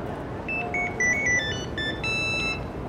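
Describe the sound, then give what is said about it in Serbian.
A telephone rings with an electronic ringtone, a quick melody of clear, high beeping notes that step up and down in pitch before a brighter chord-like tone at the end, over faint background hiss. “Čim je kročio na ulicu, Ivanu je zazvonio telefon.”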